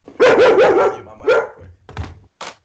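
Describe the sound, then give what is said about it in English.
A dog barks in a quick run of high, yappy barks, then gives one more bark after a short pause, followed by a couple of soft thumps. No one speaks. “that's my dog barking.”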